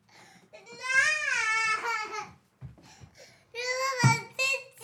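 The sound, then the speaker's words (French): A young girl crying loudly in two long, high, wavering wails, with shorter sobbing gasps between them. “Tu arrêtes de pleurer.”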